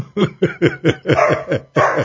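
A dog barks in a quick run of sharp, loud barks with falling pitch, one longer stretch in the middle and a final bark after a short pause.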